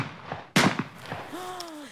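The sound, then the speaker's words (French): A single gunshot gives one sharp, loud bang in a tense rural confrontation. It rises out of faint voices and is followed by a short vocal cry. “moi je sais, c'est lui, il a tiré.”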